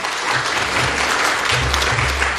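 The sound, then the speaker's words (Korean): Applause welcomes a guest missionary to a church worship service. Dense, steady clapping runs through the whole clip at an even loudness, with no clear breaks. “우리 임철수 선교사님 오늘 일부에 모셨는데 여러분 환영의 박수로 맞으시기 바랍니다”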